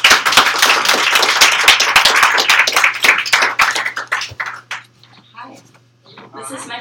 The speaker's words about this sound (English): Give it up for Isabella.